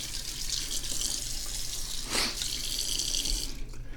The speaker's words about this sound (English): So we rinse out the sponge, wash off my hand.